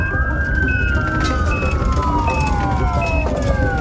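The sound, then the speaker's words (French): An ambulance siren as paramedics rush a collapsed man to a nearby hospital: a loud, continuous wail whose pitch slides slowly downward, with short high beeps repeating steadily over a rumbling traffic background. “Les ambulanciers l'emmènent sous les lumières bleutées et l'emportent au plus vite à l'hôpital du Sartillement, tout proche.”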